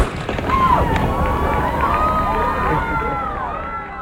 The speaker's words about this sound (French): on entendait un coup de feu, parce que ça, c'est le coup de feu d'envoi de la première course d'aviron des 208e Régate Royale de Saint-Jean à Terre-Neuve